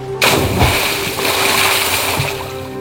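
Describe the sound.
A wooden boat is lowered and splashes into the water. A sudden splash comes just after the start, followed by continuous churning water over a steady low hum.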